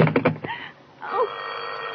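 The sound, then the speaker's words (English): A telephone bell ringing in a short trill of rapid metallic strikes that stops within half a second, followed by quieter background sound. “Oh, who's trying to call me?”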